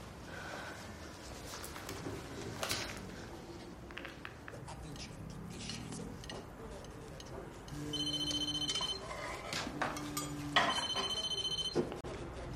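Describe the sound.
Telephone ringing in two electronic bursts of repeated tones over a busy, cluttered background with voices.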